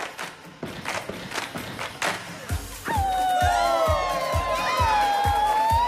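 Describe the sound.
Rhythmic stomping and clapping as two girls face off in a dance challenge. Sharp claps come first, then a regular beat of low thuds with a bright tonal layer over it.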